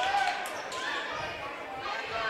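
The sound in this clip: A basketball dribbled on the court during a girls' high school game, Kearney against Nevada, with repeated rhythmic bounces under a commentator's voice and crowd noise.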